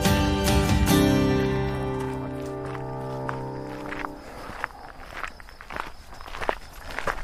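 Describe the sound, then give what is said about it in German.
Footsteps of hikers setting off uphill on a mountain trail: after sustained tones fade out, a steady series of crunching steps takes over, continuing at an even walking pace. “Dann gehen wir mal los.”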